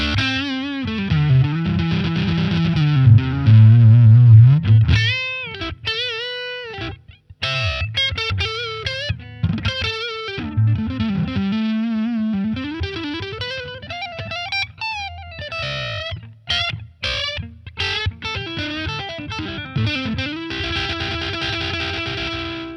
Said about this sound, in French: Et on va enclencher tout de suite ensemble le mode hot, avec le petit mini switch qui figure au-dessus. Donc toujours en manche, hein, avec le mode hot, ça donne la chose suivante.